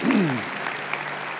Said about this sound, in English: Let's give them all a big cheer.